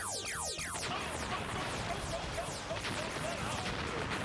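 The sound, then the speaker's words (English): A turbo auto blaster fires a barrage of sci-fi zaps, with sharp laser-like sweeps falling in pitch over a dense, continuous roar of rapid shots. “Charger blaster mode. Turbo auto blaster. Fire!”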